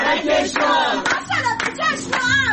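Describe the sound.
Audience applause greets a professor being welcomed at an event, steady clapping mixed with loud cheering voices throughout.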